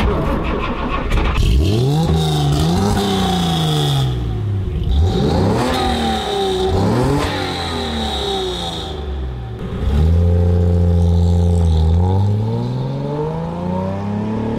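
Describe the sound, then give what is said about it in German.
Loud engine revving from a Mercedes-Benz 300 SL sports car in Rüsselsheim: several climbing revs sweep up in pitch and then drop back, with the engine holding a steady throb between bursts. “Und wie der 300 SL dann so klang, auch in Rüsselsheim, das hören wir uns jetzt kurz mal an.”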